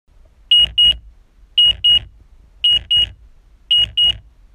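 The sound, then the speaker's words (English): Hospital pager style bleep sound effect: four pairs of short, high-pitched electronic beeps, each pair a quick double tone, repeating at an even pace, loud and clear with nothing else behind them. “So that is the sound of the Medics Money bleep, which means that one of our podcast listeners have sent us in a scenario”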